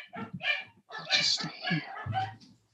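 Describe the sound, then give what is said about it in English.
A dog barks at someone passing by the door, letting out several sharp, harmonic barks in quick bursts separated by short gaps, with a person talking amid the barking. “Sorry, that's my dog.”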